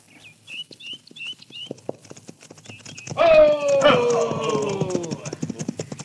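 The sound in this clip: Hoofbeats of horses carrying riders down a trail in a western setting: a quick, steady clip-clop that runs throughout, growing louder and fuller partway through.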